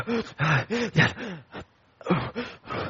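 A person imitates heavy panting, as if out of breath from running. Many quick voiced huffing breaths come in a rapid rhythm, then a short pause, then another burst of breaths.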